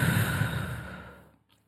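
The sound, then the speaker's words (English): A single long breath out during a guided healing meditation, a soft, airy rush of breath that starts full and fades steadily over about a second into quiet, with no talking. “First breath in. Breathe out.”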